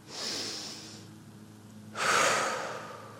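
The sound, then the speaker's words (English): A deep breath of fresh air is drawn, heard as two separate breathy rushes. The first is a softer, hissing pull of air and the second is louder and fuller, with a quiet gap between them. “You breathe in a deep breath of fresh air.”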